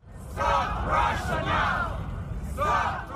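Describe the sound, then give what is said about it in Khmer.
A crowd of protesters in Times Square, New York, chants against the war, shouting loud rhythmic phrases in unison in repeated bursts with short gaps between them. “បាតុករនាំគ្នាស្រែកថាបញ្ឈប់រុស្ស៊ីឥឡូវនេះនៅឯទីលាន Times Square ក្នុងទីក្រុង New York ពួកគេក៏បានស្រែកថាបញ្ឈប់សង្គ្រាម”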